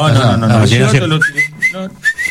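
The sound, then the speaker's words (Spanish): Someone speaks briefly, then a whistle sounds in several short, sharp, rising chirps with gaps between them, used to be heard at a distance during outdoor field work. “Para hacerte oír. El silbato te hace oír a la distancia.”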